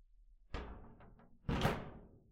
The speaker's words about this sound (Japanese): じゃあ、扉、閉めるね。